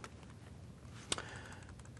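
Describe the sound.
Computer keyboard typing while HTML code is written, heard as faint, quick key clicks with one sharper keystroke standing out midway.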